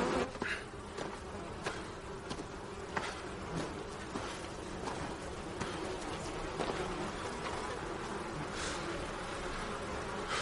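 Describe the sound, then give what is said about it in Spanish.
Bees buzz steadily around wooden, cube-shaped beehives as a beekeeper in a protective suit approaches. The dense insect hum holds at an even level throughout, with no voices. “Poco después se acerca a los colmeneros uniformado con el traje protector. Las abejas revolotean de un lado a otro.”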